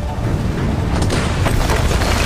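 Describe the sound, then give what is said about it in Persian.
A bomb strikes the middle of a palace roof and explodes in a loud, sustained, deep rumbling boom, with dense low noise filling the whole clip and no sharp single crack. “صدا میشنوه، میسته. بمب به وسط سقف قصر میخوره.”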